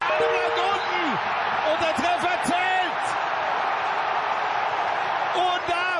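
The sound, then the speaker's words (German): Football match sounds with crowd noise, whoops and ball thuds, mixed under a speaking voice and short whistle-like tones. “Ja, so klingt Fußball.”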